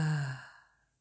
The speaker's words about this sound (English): can we just take a nice deep breath in and a nice deep breath out?